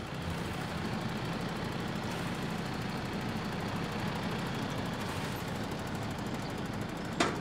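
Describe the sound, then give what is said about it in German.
A car engine idles with a steady, low, rough drone while the gearbox is shifted into reverse. A short, sharp knock sounds right at the end. “sondern da jetzt ist der Rückwärtsgang wieder. Ja, schönen Gruß vom Getriebe.”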